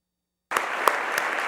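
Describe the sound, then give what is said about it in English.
Audience applause for visitors at Holden starts abruptly after a moment of silence. It gives a short, steady burst of clapping that lasts only about a second. “Did I miss anyone? Just stand up if I missed you and tell us who you are. Okay, let's give you a round.”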